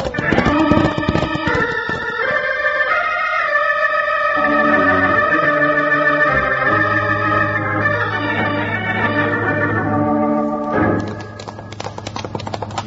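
Horses' hooves clip-clop as riders set off toward a dam in a canyon, with steady hoofbeats running under sustained music for the whole stretch and a few sharper taps near the end.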